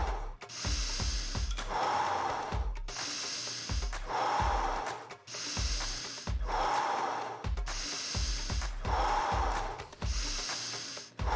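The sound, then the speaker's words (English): Deep, forceful breathwork: about five strong breathing cycles of inhaling and exhaling repeat in a steady rhythm, each roughly two seconds long. Airy rushes swell and fade, and a soft low pulsing runs underneath. “With an inhale and an exhale. In and out. Inhaling, exhaling.”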